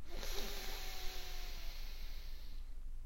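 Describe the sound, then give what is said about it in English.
A long, deep inhale through the nose during a guided group breathing exercise, a faint, soft hiss lasting a couple of seconds before it fades, over a low steady hum. “Together, let's take a big breath in through our noses.”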